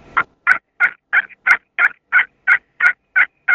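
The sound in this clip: Soft yips from a hunter's turkey call imitating a wild turkey: eleven short, evenly spaced notes in a steady rhythm, each clipped and alike, with no talking.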